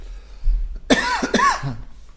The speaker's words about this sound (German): Ja, war Zeit der Hustenanfälle im Podcast. War richtig schlimm.